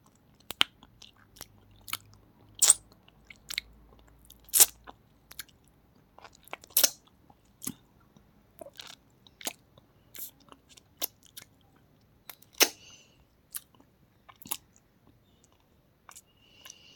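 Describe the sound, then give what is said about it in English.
Close-up eating noises of someone chewing honey: wet clicks, sticky smacks and sharp mouth snaps come in irregular bursts, some loud, separated by near silence. “I hope you don't mind eating noises. This is a trigger warning for people who don't like eating noises and stuff.”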